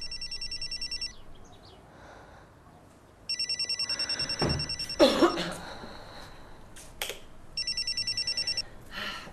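A telephone rings on the line while a call is placed to someone. Three bursts of the buzzing ring tone are separated by pauses of faint background noise, and the ringing is moderately quiet.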